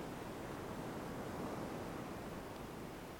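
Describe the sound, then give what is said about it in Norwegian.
Ocean waves rolling in and out on a beach: a soft, steady rushing wash of surf, faint and continuous, with no distinct breaks between swells. “La lyden trenge inn i deg. Bølgene som kommer inn”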